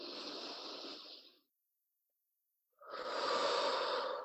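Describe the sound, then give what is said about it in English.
Two slow nasal breaths taken during a guided breathing exercise, each a soft, airy hiss lasting over a second, separated by a silent gap. “So breathe in through your nose.”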